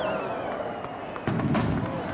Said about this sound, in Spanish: En este caso es la alcaldesa Maider Etxebarria, quien junto a Miguel Martínez de Lecea van a tirar ese chupinazo en esta segunda bajada. Ahí está.